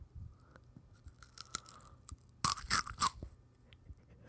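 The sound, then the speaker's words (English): Crunchy celery being bitten and chewed: faint, scattered crunches and mouth sounds, then a burst of three loud, crisp crunches close together, followed by quieter chewing, with no talk. “We're eating celery.”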